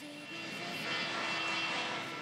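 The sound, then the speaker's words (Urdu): Sound effect of an airplane taking off down the runway: a broad, steady engine roar that swells slightly partway through, with no voices. “Ocean school کی team کو لے کر جہاز رن وے پر دوڑ رہا ہے, آسمان کی طرف بلند ہوا ہے جناب. اور جہاز نے ٹیک آف کر لیا ہے.”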